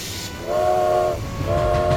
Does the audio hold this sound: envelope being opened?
no